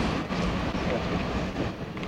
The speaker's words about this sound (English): trains? No, these are ordinary. Ordinary trains.